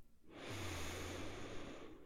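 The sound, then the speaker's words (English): A slow, deep inhalation during a guided meditation, a long, steady airy rush that swells and holds for nearly two seconds, with no talk over it. “Let's go ahead and take one more deep, deep, deep breath in.”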